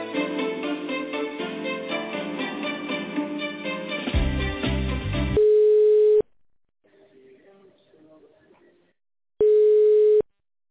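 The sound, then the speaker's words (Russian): Telephone line tones during a call transfer: hold music plays first, then two long, steady, mid-pitched beeps, separated by a faint, quieter stretch. “Минуточку, я сейчас вас на Калик соединю, потому что Вербургская Полина, 17-17, соединяю.”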